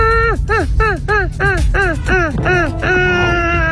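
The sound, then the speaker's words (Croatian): People's voices imitate seagull calls over a summer pop song: many short, bright, falling cries in quick succession above a steady musical bed, ending in a longer drawn-out call. “Sjetio sam se da smo nekad oponašali Galebove, pa ako pustim slušatelja otvorenog kao Galebove preko ove pjesme, dobit ćemo još ljetniju pjesmu, pa ajmo pokušat.”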